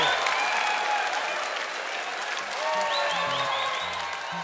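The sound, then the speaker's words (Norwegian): Audience applause at a live performance: steady, dense clapping from a crowd that holds at an even level for the whole clip. “Klapp for dere selv!”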